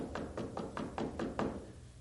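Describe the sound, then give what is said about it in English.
Rapid knocking on a door: a quick, evenly spaced run of several muffled raps, fairly loud and steady in rhythm, then it stops. “The devil is at the door. Knocking.”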